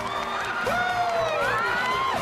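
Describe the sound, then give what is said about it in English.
Voices cheering with high, rising whoops and shouts that overlap throughout, loud and continuous for a couple of seconds. “That's our Pete. You rock, Pete. That's our Pete! Dill and Jamie look unsure for a moment, then join in and clap along.”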